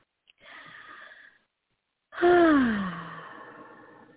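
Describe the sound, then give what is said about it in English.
A deep breath in and out: a soft, airy inhale, a short pause, then a longer, louder exhale carrying a voiced sigh that falls in pitch and fades. “We can take another beautiful deep breath, inhale and exhale.”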